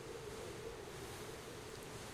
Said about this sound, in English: And soon, the sound of the wind dissipates as you head inside of a larger-than-average tent.